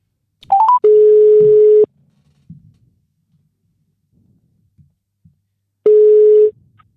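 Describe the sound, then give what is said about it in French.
Outgoing telephone call signal: a few quick stepped dialing beeps, then a steady low tone lasting about a second, a long quiet gap, and the same tone returning once. “Tout de suite, nous allons appeler du coup le papa de Ziad qui a pu nous contacter.”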